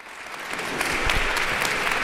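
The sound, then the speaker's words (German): A crowd claps as a woman arrives at a courthouse. The applause is dense and steady, swells slightly and holds throughout. “Applaus für Gisèle Pelicot, sobald sie das Gerichtsgebäude betritt.”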